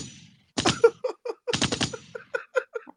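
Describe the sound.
Soundboard gunshot effect: a couple of loud, broad bursts followed by a quicker run of shorter, lighter pops in an uneven rapid volley.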